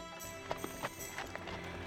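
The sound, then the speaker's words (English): Horses' hooves clip-clopping as neighboring families ride away from a farm, a quiet, uneven run of hoof beats over low background noise. “Soon, the neighboring families were packed up and riding on back to their own farms, and the Davises were left alone.”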